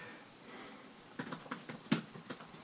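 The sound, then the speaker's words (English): Rapid keystrokes as someone types a message, a quiet, quick patter of clicks that starts after a near-silent opening and continues to the end. “Just messaging real quick. I can type that fast.”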